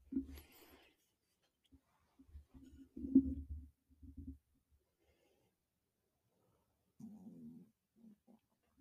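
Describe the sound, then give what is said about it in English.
Stomach rumbling, a few faint low gurgles separated by near-silence, the loudest in the middle and a softer one near the end. “Sorry if you heard that, that was my stomach.”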